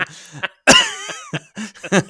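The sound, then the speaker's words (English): Harsh, choking coughs from someone who inhaled a drink while sipping, coming as a series of loud, irregular bursts. One long, strained fit comes early, and the others follow with brief gaps between them. “Sorry about that. God, I just had some drink right in my. I have a drink right in my fucking lungs. Then I think I was inhaling while I was sipping.”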